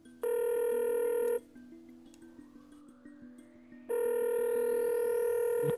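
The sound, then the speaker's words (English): A telephone rings as a call is placed. Two long, steady, bright ringing tones are separated by a quieter gap, during which a faint tone slowly rises in pitch. “I say we give him a call first. Dial him up.”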